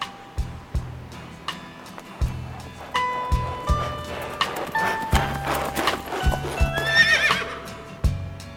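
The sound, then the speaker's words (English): Hooves clop rhythmically as a horse-drawn carriage passes by, and a horse whinnies partway through. The clatter grows fuller toward the middle and end. “Just then, a large carriage passed by.”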